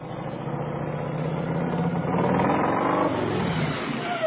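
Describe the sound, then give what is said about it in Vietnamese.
A car rolls slowly with its engine giving a steady, rough mid-pitched hum and broad road noise. The level stays fairly even throughout, with no voices. “Cả xe hơi chạy chậm chậm rồi ngừng ngay trước ngõ.”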